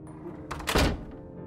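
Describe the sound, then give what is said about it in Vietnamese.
A wooden door closes with a single short, dull thud that briefly swells out of a quiet, muffled background. “Tiếng cửa gỗ đóng lại”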